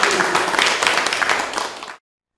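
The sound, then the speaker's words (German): Audience applause, a brisk dense patter of clapping that carries on for about two seconds and then cuts off abruptly. “da können wir vielleicht auch dafür nochmal einen Beifall spenden.”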